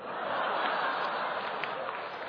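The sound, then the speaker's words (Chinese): Audience applause after a xiangsheng crosstalk comedy performance: dense, even clapping from a crowd holds steady and loud for the whole stretch. “鼓掌了，演出成功了”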